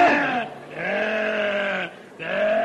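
A sheep bleats three times. The drawn-out, wavering calls are loud, with the middle one longest and short pauses between them.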